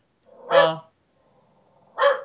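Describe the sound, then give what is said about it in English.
A dog barks twice, two loud, short, harmonic barks about one and a half seconds apart with near silence between them. “So we're just gonna listen to my dog bark.”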